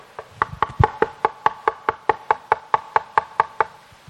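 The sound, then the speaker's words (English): Knuckles rap on a wooden pulpit in a long, evenly spaced series of sharp, hollow knocks that hold a steady rhythm from start to finish. “I'm hurting my knuckles. But I'm knocking. Knocking is painful to the knocker.”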